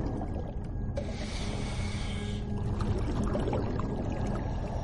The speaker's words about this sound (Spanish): En el tanque las burbujas se elevan desde el respirador de Lockhart.